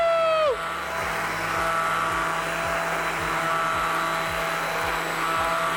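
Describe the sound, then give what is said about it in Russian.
A kitchen blender whirs through food in a steady motor drone with a regular low thumping pulse beneath it, after a brief tone that glides down in pitch at the very start. “И также еще раз блендерю.”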